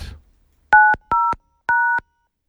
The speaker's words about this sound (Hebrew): יש לכם את הספרה 5. בוא נשמע את הקשות.